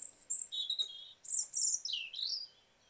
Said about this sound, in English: The next one I'm going to play is the robin. Again, a really, really familiar songster.